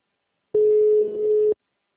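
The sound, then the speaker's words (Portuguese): Telephone busy tone after a dropped call: one steady, mid-pitched electronic beep lasting about a second, loud and alone with silence on either side. “Eu estava falando com a senhora e caiu a ligação.”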